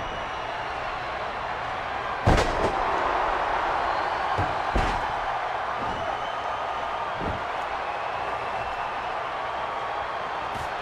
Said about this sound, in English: And the scoop slam.